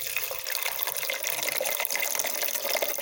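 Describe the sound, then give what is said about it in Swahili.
Water flows steadily from a coin-operated water vending machine, making a continuous hissing rush that stays even throughout. “ili maji yatoke unaweka kiasi cha shilingi 200 au kadi maalum katika mashine hii, unabonyeza na utapata huduma hii ya maji.”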